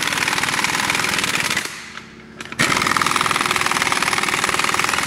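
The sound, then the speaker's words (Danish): An impact wrench runs wheel bolts in loosely at a car workshop, giving a loud, rapid, rattling hammer. It cuts out briefly near the middle, then starts up again just as hard. “Så jeg prøver at køre dem lige løst ind først her. Det larmer lige lidt. Det lyder som om, vi er på et værksted.”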